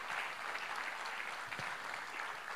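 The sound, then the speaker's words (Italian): Applause fills a Sunday gathering: steady, dense clapping from a crowd, sustained and even in loudness for the whole stretch, with no talking over it. “Un forte applauso a loro che si accomoderanno con me.”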